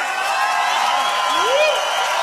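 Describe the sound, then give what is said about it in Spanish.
Audience applause after a guest is introduced, a steady wash of crowd clapping and noise with a single voice calling out briefly over it. “¡Un aplauso!”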